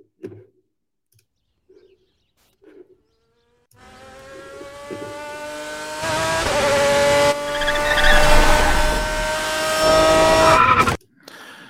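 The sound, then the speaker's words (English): A sports car engine revs, with a Ferrari engine sound dubbed over footage of a McLaren 575. A few faint ticks come first, then a loud, high-pitched engine roar with strong harmonics builds and holds for several seconds before cutting off abruptly. “Case note, a McLaren 575 does not sound like that. That they actually overlaid a Ferrari sound to the McLaren.”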